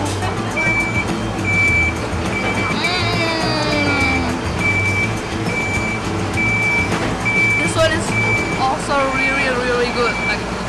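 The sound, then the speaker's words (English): A truck reversing right behind people, its high, steady beeper repeating in an even rhythm over a constant engine rumble and road noise, with voices faintly audible under the din. “So we apologize for the background noise because there is like a truck right behind us.”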